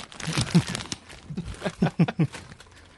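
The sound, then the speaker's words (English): Crinkling of a Fritos corn chip bag mixes with crunchy chewing of the chips, forming a run of irregular rustles and a few sharper crackles. “Eat a couple fucking Fritos real quick.”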